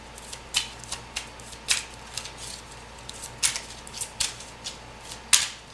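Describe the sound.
Tarot cards being shuffled, a quiet series of many sharp, crisp snaps and riffles at uneven intervals over a faint steady background.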